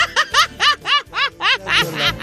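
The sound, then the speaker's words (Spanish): A voice imitates crying with a quick run of short, rhythmic sobbing bursts. Each is high and nasal with an arching pitch, heard alone and evenly spaced, and easily taken for snickering. “su llanto sonaría más o menos así, mira.”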